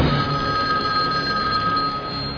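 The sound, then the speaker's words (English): A telephone bell ringing loudly and continuously with a bright, steady metallic trill, heard alone without voices. “I have to answer that phone.”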